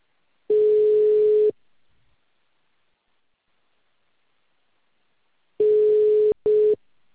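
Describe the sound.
Telephone ringing tone heard while a call is being placed: a steady single-pitched tone sounds for about a second, falls silent for several seconds, then returns as a second burst broken by a brief gap.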